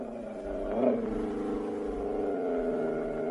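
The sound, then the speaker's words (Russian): A deep, sustained roaring growl from Caesar, a big dog that roars like a lion in an audio drama. The rumbling, harmonic tone swells briefly near the start, then holds steadily to the end. “Ох, кто этот великолепный зверь? А это наш пес Цезарь. Пес? Вы ошибаетесь. Это настоящий лев.”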